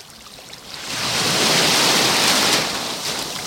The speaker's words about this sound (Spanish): Lo que más gusta de este programa es el momento en el que acerco el micrófono al rompeolas. Así suena hoy la playa de la Rábita.